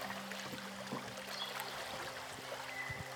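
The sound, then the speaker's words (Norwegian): A river flows with a continuous, even rushing wash of water that holds steady throughout, with a few faint low knocks underneath. “Du hører elva ennå?”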